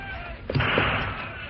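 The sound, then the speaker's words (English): Soldiers' gunfire in a mountain pass: two dull, muffled shots about a quarter second apart over a steady hiss. “Soldiers in the rear guard see them. They open fire.”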